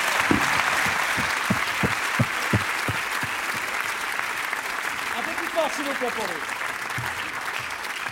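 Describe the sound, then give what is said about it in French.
Audience applause at a live comedy evening: dense, steady clapping that fills the whole clip at an even level, with a voice speaking over it. “Mesdames et messieurs, merci d'applaudir très fort le cancer de Pierre Desproges”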